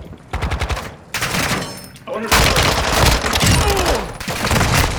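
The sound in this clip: Video game gunfire comes in loud bursts of rapid automatic fire. Short gaps separate the first few volleys, then the shooting runs almost continuously with sharp cracks and rumbling booms.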